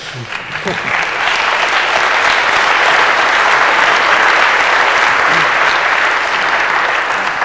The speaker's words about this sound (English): Ask for your applause.